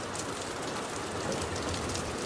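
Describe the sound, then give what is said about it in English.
Steady rainfall with a dense, even hiss of drops that never lets up, with no voices over it. “It's raining. Y'all hear it? It's raining, y'all.”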